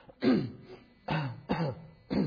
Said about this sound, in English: I'm trying to cover this so I can cough.